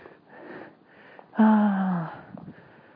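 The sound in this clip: Sniffing through a runny nose from a cold: a few short, soft sniffs around a louder nasal sound in the middle.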